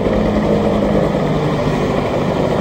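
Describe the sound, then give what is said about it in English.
Two military helicopters loaded with soldiers sit on the tarmac at an airport in Florencia, Colombia, producing a loud, continuous engine and rotor drone that stays steady throughout. “Two military helicopters filled with well-armed soldiers sit on the tarmac”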